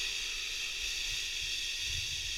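A can of beer, the official beer of NASCAR, being opened, heard as a steady fizzing hiss that runs evenly through the whole clip with no voices over it.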